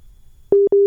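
Busy tone on a dropped telephone line: a loud, steady mid-pitched electronic tone that cuts in after a faint low rumble, breaks off once very briefly, then resumes.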